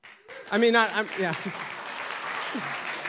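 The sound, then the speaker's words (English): A church audience claps during worship: a voice is heard briefly first, then dense, even clapping rises and carries on steadily to the end. “If you're excited about Jesus, then would you clap?”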